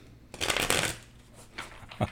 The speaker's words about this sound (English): while mixing the cards